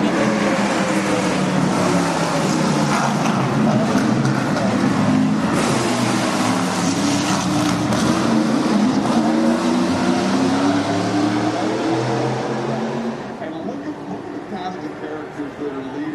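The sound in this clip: Race cars running a practice lap at a day at the races: a loud, continuous engine roar with wavering pitch that holds steady, then drops somewhat quieter near the end.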